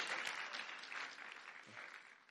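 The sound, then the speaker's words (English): Faint applause from an audience at a talk where a book is offered for a library, a soft, continuous patter of clapping that thins slightly toward the end. “Will you not clap?”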